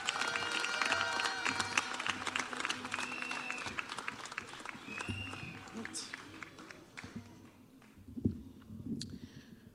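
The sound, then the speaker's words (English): Audience applause welcoming a guest speaker at a graduation ceremony: fairly faint, steady clapping that stays even throughout, with voices mixed in. “Ladies and gentlemen, please put your hands together and help me make welcome our guest speaker for tonight”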